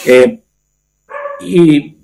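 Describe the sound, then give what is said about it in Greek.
Several dogs barking at home: a few short, sharp, loud barks, one burst followed by a pause and then a quicker pair. “συγγνώμη για τις παρεμβολές των σκυλιών μου”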